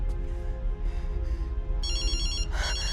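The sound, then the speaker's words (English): A mobile phone ringtone breaks in partway through, a bright electronic warbling melody over a constant loud background rumble. No voices are heard. “answers her phone”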